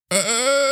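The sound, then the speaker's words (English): A person groans while straining to get out of a chair, producing one sustained, fairly loud voiced moan. It starts abruptly, wavers slightly at the start, and then holds a steady pitch to the end. “What is that sound? That's the sound of me trying to get out of the chair.”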